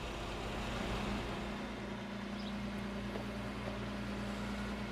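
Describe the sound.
A car's engine rumbles in a low, steady drone as the vehicle drives across, holding an even level throughout with no speech.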